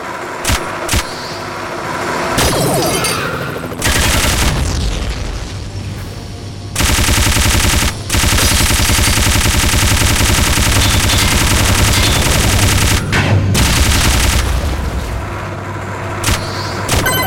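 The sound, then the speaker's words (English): Sustained bursts of rapid automatic gunfire from a machine gun, loud and harsh, with tightly spaced shots running through long stretches and briefly broken by short pauses. “Machine gun.”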